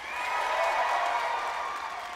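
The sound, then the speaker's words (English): Applause from a live audience at an evening show: a steady, dense wash of clapping that holds at an even level across the whole clip, with no voices clearly above it. “Clap for that.”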